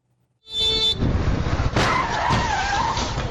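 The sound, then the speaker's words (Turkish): Loud tire skidding from cars thrown about in a collision after one ran a red light in Ümraniye Dudullu; a harsh, sustained screech with a wavering tone bursts in after a moment of near silence and holds steady to the end. “Kırmızı ışıkta geçti. Çarpışmanın şiddetiyle araçlar savruldu”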